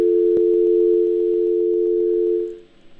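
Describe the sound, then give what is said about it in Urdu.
A steady dial tone on a phone line after a caller's call dropped: one continuous low hum holds for about two and a half seconds, then cuts off into near silence. “ان کی line drop ہو گئی”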